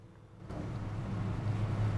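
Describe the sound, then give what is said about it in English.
A car drives past trees, its low engine rumble and road noise swelling in after a brief quiet start and continuing as a steady, fairly soft drone with a wind-like hiss. “Driving past trees.”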